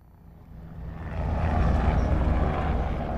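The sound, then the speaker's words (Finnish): New fighter jets roar overhead at an airshow in Turku. A broad engine rumble swells over the first second or so, then holds as a loud, steady roar with no voices. “Turku Airshowssa on mukana muun muassa Suomelle tarjottavia uusia hävittäjiä.”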